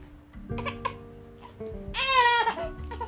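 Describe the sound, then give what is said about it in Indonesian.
A baby fusses with soft babbling sounds, then breaks into a brief, loud, high-pitched wail before settling back to quieter vocal noises. “masa ya isi podcastnya bayi nangis”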